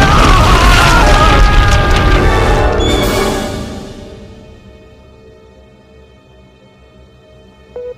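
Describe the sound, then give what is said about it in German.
The ground trembles and breaks open in a heavy, continuous roaring rumble with crackling, loud for about three seconds before dying away to near silence, ending with a brief click. “Was ist das? Der Boden zittert. Oh mein Gott. Vorsicht, der Boden bricht auf.”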